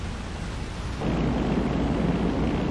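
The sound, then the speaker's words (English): A C-47 Dakota aircraft drones overhead in the naval combat game Battlestations: Midway, a dense, steady roaring rumble that steps up noticeably louder about a second in and holds. “That C 47 Dakota is going to drop target parachutes around your ship.”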